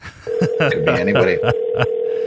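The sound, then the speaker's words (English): A telephone tone announces an incoming call, holding one steady pitch for about two seconds while a string of short, sharp bursts punctuates it. “So, oh shit, we're getting a phone call. Who could it be?”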